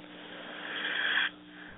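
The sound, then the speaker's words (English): A person draws in a single breath, a soft airy hiss that holds steady for just over a second and then cuts off sharply into quiet. “I think that was your first breath I heard you take.”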